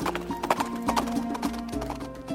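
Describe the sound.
A horse gallops with hooves clip-clopping in a quick, steady rhythm of repeated sharp beats, moderately quiet, with a faint tonal hum underneath.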